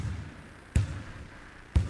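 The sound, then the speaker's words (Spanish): Two deep thuds of a heavy ball bouncing on a wooden floor, spaced about a second apart. Each impact is low and solid with a short rebound ring, heard alone against quiet background hiss. “Uy, mucho más pesada esta pelota, me parece. Sí. Mirá cómo suena cuando pica contra el piso, que siempre, casi siempre, es de madera.”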